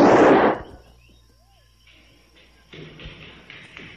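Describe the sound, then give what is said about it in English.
A single loud gunshot fired at an intruder in a radio drama bursts out at the very start and quickly dies away, followed by a quiet stretch and then faint shuffling and rustling. “I'd better... take my my gun. Oh, dear. I never thought I'd have to use it, but I've got to protect these girls.”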